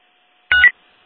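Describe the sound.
A single telephone keypad dialing tone while placing a callback: one short, bright, steady beep lasting about a fifth of a second, alone against silence.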